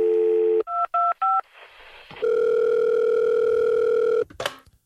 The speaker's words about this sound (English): Let's dial them up.